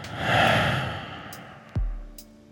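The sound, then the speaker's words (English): One long, airy breath, in through the nose and out through the mouth, swells and then fades. A brief low thump follows. “Take a breath with me now. First in through the nose, and then out through the mouth.”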